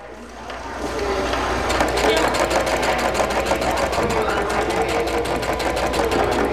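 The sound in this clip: A sewing machine runs at a ribbon skirt sewing workshop at the Barona Recreation Center on the Barona Reservation. After a quieter first second it settles into a rapid, steady whirring rattle.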